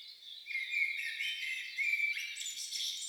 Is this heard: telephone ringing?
no